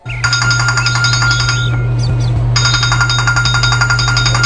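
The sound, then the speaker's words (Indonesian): A telephone rings loudly in bright, warbling electronic bursts over a low steady hum: one long burst of ringing, a brief pause, then the ringing resumes and carries on to the end. “Pak, ada telepon nih dari Pak Adi.”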